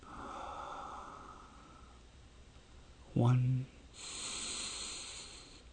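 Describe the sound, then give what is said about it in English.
A deep inhale through the nose during a guided alternate-nostril breathing exercise with the lips sealed, a steady airy hiss that follows a brief spoken word. “So as we're getting ready to do that, let's take a deep breath in. 1, through our nose.”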